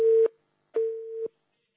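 A telephone signals an incoming call with two steady, mid-pitched electronic tones. The second tone lasts about twice as long as the first, and silence separates them.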